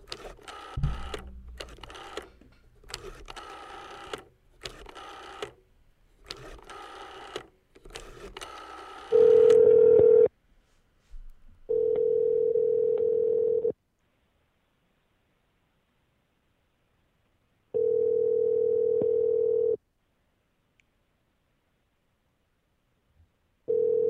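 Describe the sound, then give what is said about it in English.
A telephone number is dialed with a run of quick clicking key presses. A steady, low ringback tone follows, repeating in long bursts separated by silent gaps. “So are you ready to dial? I'm ready. Okay. I will give you the signal when it's time for you to dial.”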